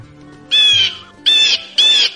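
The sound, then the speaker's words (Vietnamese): Shrill, threatening cries of a human-faced bird creature: three loud, harsh, high-pitched squawks, the first the longest, separated by short gaps. “Cửu phong phát ra tiếng kêu uy hiếp cao vút với cái cửa hàng.”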